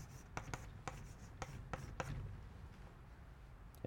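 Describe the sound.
Writing with a few faint, scratchy strokes: several quick marks in the first two seconds, then quieter, softer scribbling. No one talks.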